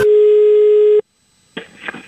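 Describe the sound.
A telephone call tone sounds as a single flat, loud tone for about a second, then cuts to silence before a burst of muffled, rustling noise.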